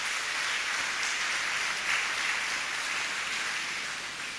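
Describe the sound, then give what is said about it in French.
A church audience applauds the newly baptized after their baptism, a soft, even patter of many hands that sounds almost like rain and fades slightly toward the end. “Nous allons tout d'abord acclamer le néophyte pour cette grâce infinie qui est sur eux.”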